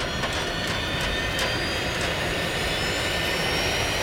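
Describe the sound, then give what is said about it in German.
Spaceship hyperspace thrusters switched on inside a huge hangar: a loud, continuous jet-like roar of broad rushing noise, marked by a few sharp crackling bursts in the first half, steady in level throughout. “Es ist hier sehr laut, weil der Kapitän die Düsen der Hypo-Hyperspace angeschaltet hat.”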